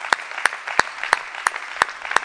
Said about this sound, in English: Can you give yourselves a big hand clap for that as well?